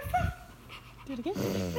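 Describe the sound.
A person imitates a dog barking, giving a few short, gruff 'ruff' barks, one early and then a quick burst near the end, the voice moderately loud with a panting, yappy quality.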